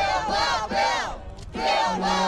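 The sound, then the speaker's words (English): Protesters at a rally at Wisconsin's state capitol chant against Governor Scott Walker's plan to curb bargaining rights. Loud, rhythmic chanted phrases from many voices come in bursts with a short lull between them. “Opponents chanted against Governor Scott Walker's proposal to curb bargaining rights.”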